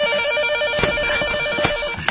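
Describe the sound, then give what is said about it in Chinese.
Telephone ringing urgently enough to wake a sleeper: a continuous, shrill electronic trill at a steady pitch, loud and alone, with a few brief sharp knocks. “急促的电话铃声把苗振从睡眠中惊醒。”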